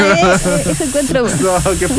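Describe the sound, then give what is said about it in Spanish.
An aerosol spray can hisses in a steady, bright spray that runs almost unbroken alongside a voice, pausing briefly midway before resuming. “No, ¿qué fue eso? Aerosol. Sí, aerosol.”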